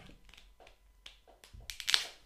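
Small clicks and taps from handling a mini sparkling wine bottle as it is opened. A string of faint, irregular knocks builds up to a brief, brighter fizzing hiss near the end.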